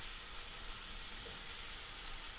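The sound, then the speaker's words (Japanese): Finely minced ingredients are stir-fried in a pan. A small amount sizzles with a soft, steady hiss that runs without pauses and with no talk over it. “ここである程度しっかり食べられるぐらいまでは炒めてしまいましょう。量が少ないので焦げつかないように気をつけてくださいね。よく混ぜながら炒めるといいと思います。”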